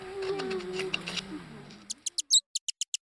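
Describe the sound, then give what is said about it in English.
A bat chirping while calling to a mate gives a rapid run of short, high-pitched chirps after a voice speaks briefly over low background sound. “This chirping isn't a bird. It's a bat calling to a mate.”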